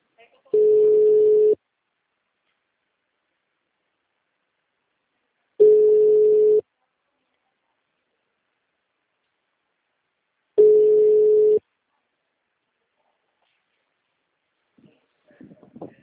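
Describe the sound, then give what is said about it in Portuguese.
Telephone ringback tone while a call is being placed: three steady single-pitch beeps, each about one second long, spaced roughly five seconds apart with silence between, then faint brief sounds at the very end. “Tô fazendo uma ligação rapidão.”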